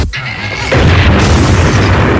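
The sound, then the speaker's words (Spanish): A balloon bursts as a brick dropped onto it drives it onto a nail, giving one sharp, loud boom. A sustained, dense noise follows to the end. “Primero colocaré el globo sobre el clavo, después colocaré el ladrillo sobre el globo y entonces lo soltaré. ¡Badabing!”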